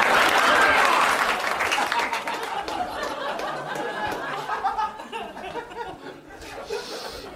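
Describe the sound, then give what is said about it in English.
Audience clapping mixed with laughter and chatter, loudest in the opening second and then thinning into scattered claps and murmuring voices that fade toward the end. “Oh, now you're clapping, assholes?”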